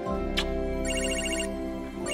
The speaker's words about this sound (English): Sorry, one second. He gets up and grabs his phone.